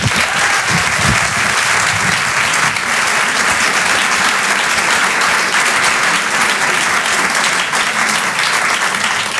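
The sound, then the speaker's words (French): Audience applause at a French stand-up comedy show: dense, loud, steady clapping that carries on without a break for about nine seconds, with no voices over it. “Faites du bruit s'il vous plaît pour Victor Jesquière.”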